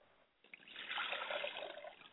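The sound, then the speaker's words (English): Liquid poured out as a libation in a ritual offering, a steady splashing trickle that begins abruptly and runs for about a second and a half at a moderate level, with no talking. “I pour libations to the north. And I say Ashe. I pour libations to the south, and I say Ashe.”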